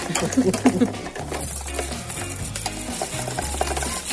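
Stirring of chocolate chunks melting in a pot set up as a double boiler: a steady scraping and clinking that runs throughout, with a low, even hum underneath.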